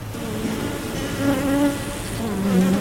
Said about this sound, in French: On arrive, on ouvre l'une des 6 ruches. Je remets un peu de fumée dans le haut au moment d'ouvrir le dessus.